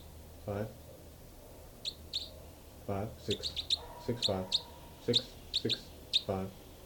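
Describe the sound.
Birds chirp in many short, high, bright notes at irregular intervals, some in quick clusters, at moderate loudness.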